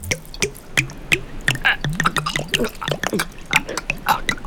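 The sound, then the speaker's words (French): Water poured from a drinking flask straight into someone's mouth in the desert. Irregular splashes and drips patter unevenly, mixed with intermittent voice sounds. “De l'eau? Vous avez de l'eau? Vous en voulez? C'est pas de refus. J'ai le gosier tout sec. Vous pouvez pas m'en verser dans le bec?”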